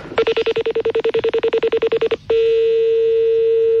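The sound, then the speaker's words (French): A telephone number is dialed: many rapid, evenly spaced beeps at one steady pitch, then a click and a continuous unbroken tone. “on va rappeler votre collègue, je vais l'appeler”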